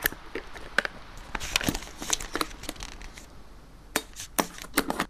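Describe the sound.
Wrapping crinkles and tears as a gift of liquor is unwrapped, with many sharp, irregular crackling bursts and a few louder rips near the end, and no voices.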